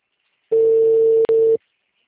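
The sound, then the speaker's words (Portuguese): A telephone ringback tone sounds while calling someone: one steady mid-pitched tone lasting about a second, with a brief break near its end, followed by silence. “Ligando pra ele, vamos ver se ele me atende.”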